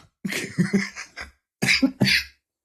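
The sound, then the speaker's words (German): A smoker's cough comes in two bouts of harsh, rapid hacking bursts with a brief pause between them, loud and close with no talking. “Oh, ich hab noch mal einen Raucherhusten.”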